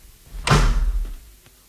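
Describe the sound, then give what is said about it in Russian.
A door is jerked and slammed shut with a single heavy thud, followed by a brief low rumble as it settles. “Генерал рывком захлопнул за собой дверь.”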